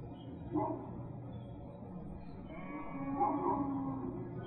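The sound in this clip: Farmyard ambience with a dog barking now and then over a steady low background hum; a couple of louder bursts of barking stand out, and no clear music is evident.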